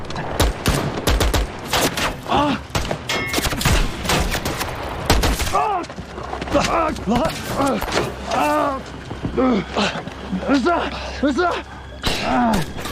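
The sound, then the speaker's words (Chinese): Heavy gunfire rattles in dense, rapid bursts of sharp shots through the first half. People then shout loudly over scattered further shots. “枪打得不准，这弹数用得多。”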